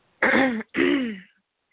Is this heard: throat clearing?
yes

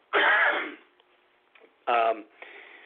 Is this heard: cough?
yes

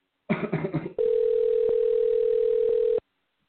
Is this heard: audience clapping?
no

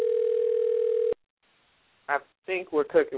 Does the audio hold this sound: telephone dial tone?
yes

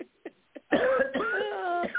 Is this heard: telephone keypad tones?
no

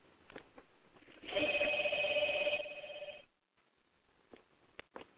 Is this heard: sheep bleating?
no

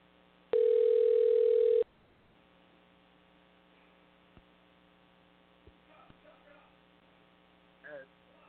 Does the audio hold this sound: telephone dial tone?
yes

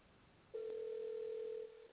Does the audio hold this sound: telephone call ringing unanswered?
yes

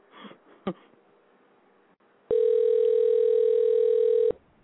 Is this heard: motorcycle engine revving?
no

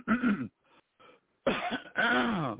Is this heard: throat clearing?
yes

